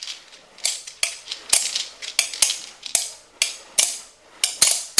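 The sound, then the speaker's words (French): Crackling fire, heard as many sharp, dry pops and snaps in irregular bursts. The crackles are fairly loud and stand alone with no voices. “C'est le feu qui crépite.”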